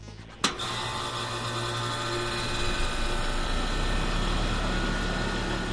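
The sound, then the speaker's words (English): An air conditioner starting up in a Canadian summer: a sharp click-like jolt, then a steady loud whirring hum with a low tonal drone that runs on unchanged. “The sound of the air conditioner starting to stir. As Canada enters the very warm summer months, it's a sound heard more and more often here.”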